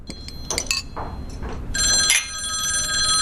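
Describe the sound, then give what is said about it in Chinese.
A telephone rings for a work call. A few short, bright clinking tones come first, then a sustained, trilling bell ring sets in about midway and holds steady to the end. “好像是您的电话，是工作上的事儿。”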